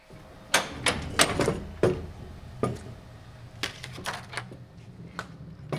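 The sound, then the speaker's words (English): A Vandercook letterpress printing press in operation, type locked in and rollers hand-inked, gives many sharp, irregular clacks and thumps, loudest early on, then sparser. “That's a Vandercook press, a workhorse of any letterpress print shop. Carved images and type are locked in. Rollers are inked by hand, then passed over, pressing the image onto the paper.”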